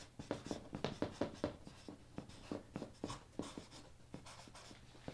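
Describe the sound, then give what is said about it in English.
Writing during a sermon: many faint, short scratching strokes in an uneven, quick rhythm, with no voices. “And then it leads me to, I'm going to write it this way, worshipful transformation.”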